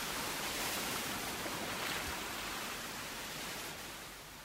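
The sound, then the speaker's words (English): Waves wash in as the tide comes in, a soft, continuous hiss of surf that stays even before fading slightly toward the end. “Hang on, the tide's coming in.”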